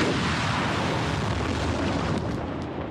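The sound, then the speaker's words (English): Deep, continuous roar of rockets blasting into the sky during a military missile launch from Iran toward northern Israel: a loud, steady rumble that holds unbroken for the whole span, with no voices. “In footage released by Iran's military, rockets blast into the sky towards northern Israel.”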